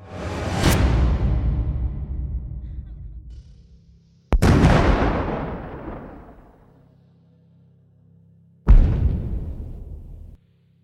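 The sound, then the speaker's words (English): Flashbang pops and explosions in a violent raid: three sharp, loud blasts spaced a few seconds apart, each with a long, rumbling tail that slowly fades before the next one hits. “the pop of flashbangs blinded the men and shocked their senses momentarily. This was followed by the deployment of smoke bombs that quickly reduced visibility.”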